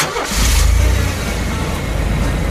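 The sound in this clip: A car engine starts up during a driving lesson and settles into a loud, steady, low rumble that holds to the end without any talk.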